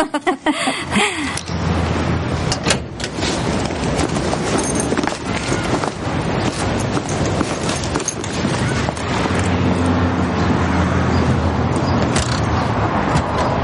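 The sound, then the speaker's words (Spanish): A van pulling away and merging into city traffic: a continuous, rumbling wash of engine and road noise that swells and holds steady, with passing vehicle sounds layered throughout. “mientras el vehículo se incorpora al tráfico”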